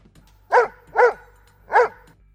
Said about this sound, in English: One of the guards, who happened to be accompanied by a dog, was alerted by the creature's barking before Arihant could immobilize him.